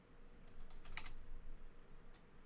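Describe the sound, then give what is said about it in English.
Typing on a computer keyboard while entering a web search: a faint run of quick key clicks in an uneven rhythm, with no talk. “I was starting to type”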